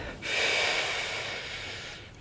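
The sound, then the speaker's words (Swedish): A person takes one long breath in during a guided breathing exercise: a steady, airy hiss that starts sharply and lasts about two seconds, heard alone. “Andas in.”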